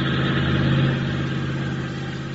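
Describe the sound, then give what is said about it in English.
A motor vehicle engine runs steadily with a dense, even rumble and a low droning hum. Its level stays constant throughout, with no talk over it. “start your motor.”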